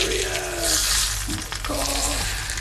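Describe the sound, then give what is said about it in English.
Butter browning in a pan gives off a continuous, busy sizzle with fine crackles and spits, holding fairly loud and even from start to finish. “So I'm cutting it out in veggies and dividing them on this. And then now I'm gonna brown some butter.”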